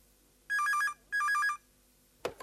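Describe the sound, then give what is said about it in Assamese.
A telephone rings for an incoming call in two loud bursts of rapid warbling electronic trills, with a short gap between them, followed after a pause by a single sharp click. “কোনোবাই phone কৰিছে”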